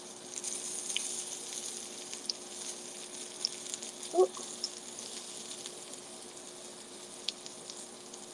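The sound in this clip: Faint, steady sizzle of zucchini frying in an oil-filled pan: a soft continuous hiss with a few tiny pops and one brief louder clink near the middle.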